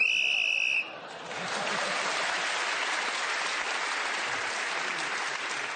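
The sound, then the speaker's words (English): A shrill whistle marks the end of a round in a panel word game: a steady tone for under a second, followed at once by loud, sustained audience applause that holds at an even level. “He's moved forward, and that extra point for speaking as the whistle went”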